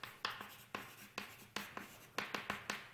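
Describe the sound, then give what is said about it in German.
Handwriting by pen or chalk: many short scratchy strokes in an uneven, steady rhythm, each a quick bright tap followed by a brief scrape. “Ich schreibe Ihnen das mal so salopp”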